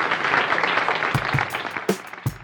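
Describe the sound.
Audience applause welcoming boxing promoter Don King onto a TV show, a steady patter of clapping that breaks into a few sharper, louder claps toward the end.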